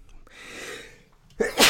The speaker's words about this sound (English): I had to sneeze on air because I'm sick.